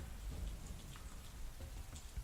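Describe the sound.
Soft, steady rainfall with a continuous dense hiss and scattered droplet patter, a low rumble beneath, and no voices.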